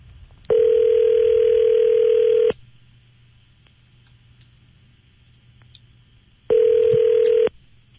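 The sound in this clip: An outgoing telephone call rings on the line: two flat, buzzing ring tones, the first about two seconds long and the second about one second, separated by a long quiet gap.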